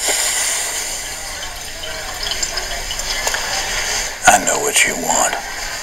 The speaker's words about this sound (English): Washing his hands at a sink.